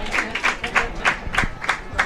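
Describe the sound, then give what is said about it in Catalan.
Football supporters in the stands at a Tordera match applaud a substitution, pulsing clapping at a moderate level while a man's voice talks over it. “Aplaudeix, per tant, la grada de Tordera.”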